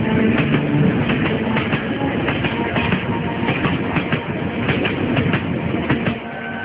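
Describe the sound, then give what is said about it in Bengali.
A train rushes past another train at high speed. It makes a loud, continuous rumble and rattle with a rhythmic clickety-clack of wheels throughout, easing slightly just at the end. “পাশ দিয়ে খুব শব্দ করে আরেকটা train গেল ট্রেনটা খুব জোরে ছুটে যাচ্ছে”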